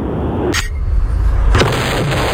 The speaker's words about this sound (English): I'm sorry, it's the grenade today. You made the wrong choice.